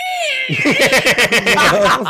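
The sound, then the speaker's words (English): A voice mimics cats going crazy: a falling, whining meow-like cry, then a rapid run of choppy, frantic yowls and squeals, loud and uneven throughout. “cats going crazy”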